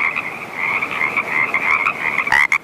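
A male frog gives a slow series of advertising calls aimed at females. The loud, buzzing croak holds steady through the whole clip, and a couple of sharper bursts come near the end.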